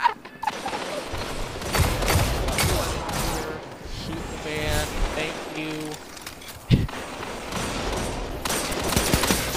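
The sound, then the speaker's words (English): Rapid bursts of gunfire in the video game Destiny 2 as a player shoots at a warlock during a team match. The loud shots come in clusters with mechanical clatter while players talk over them. “I'm about to, about to shoot that warlock.”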